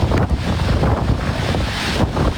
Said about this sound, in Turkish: İtalya'nın Sicilya adasına hortum vurdu.